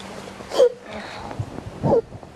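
A child sobs after crying, with two short catching gasps and quiet between them.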